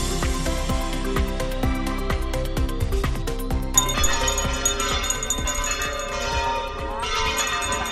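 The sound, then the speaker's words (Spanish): Bells clang for the Fuensanta festival, the traditional vela in Córdoba, with rapid, overlapping metallic strikes. A brighter, higher bell joins partway through, thickening the ringing. “Ha arrancado ya la festividad de la Fuensanta, así suena, la tradicional vela en Córdoba”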